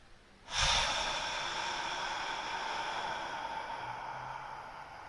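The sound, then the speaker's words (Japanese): Abdominal breathing during a relaxation exercise: a sudden breathy onset gives way to a long, steady, hissing exhale that continues to the end, alone without speech. “その時に腹式呼吸をねやっていきます。まず吸って吐きます。できるだけ長く吐いて”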